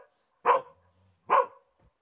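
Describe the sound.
Two sharp barks from a stray dog trailing a piece of string, spaced under a second apart, with near silence between and after them.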